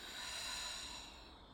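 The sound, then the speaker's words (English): A slow, soft exhale during guided yoga alternate nostril breathing: a single faint, airy hiss of breath, steady at first and easing slightly toward the end. “Inhale, filling the belly. Exhale, letting it all go.”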